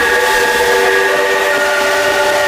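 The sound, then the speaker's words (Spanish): A train sounds its horn: a sustained chord of several steady tones rings out loudly over a broad rushing rumble of the rolling train, unbroken from start to finish. “El tren de las borrascas, ahí está Monforte poniéndome el tren, vamos casi a frente por día.”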